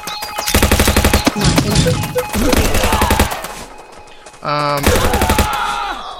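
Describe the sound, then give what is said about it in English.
Rapid automatic machine-gun fire in a video game, coming in a few quick, loud bursts separated by other busy game effects, with a short electronic tone sounding near the end. “Teleporter. Machine gun. There's some ammo from the machine gun.”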